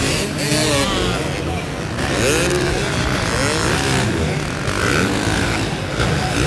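Motocross bikes from the 250 and 450 classes race a lap of a British track, their engines a loud, continuous, raspy roar that rises and falls as riders rev through the course.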